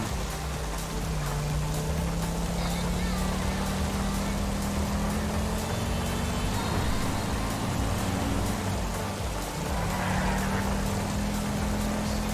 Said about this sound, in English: Oh wow, this McLaren goes so fast on the roads. It's ridiculous.